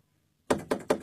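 Knocking on a closed door: three sharp, evenly spaced knocks, each a hollow thud with a short ring-off, following a moment of near silence.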